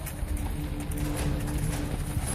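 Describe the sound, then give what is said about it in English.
Hooves of a heavy draft horse clip-clop at a trot, a fast, steady run of many sharp, even thuds with no pause throughout. “Almost any adult horse of this breed can trot with a load of 1.5 tons.”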